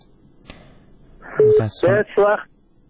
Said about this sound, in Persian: تلفونشان قطع شد